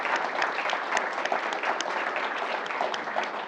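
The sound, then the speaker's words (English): An audience gives the president a final round of applause at an evening event in Nashville, a dense, steady clapping that holds at an even loudness throughout. “One final hand for our president.”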